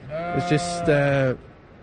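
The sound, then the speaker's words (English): A sheep bleats loudly once for just over a second, a wavering, nasal cry that stutters at the start, as the flock is moved to summer pasture on an island. “So here today we are putting the sheep over to pasture for the summer months on an island.”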